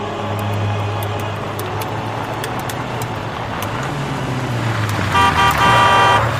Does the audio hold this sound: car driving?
yes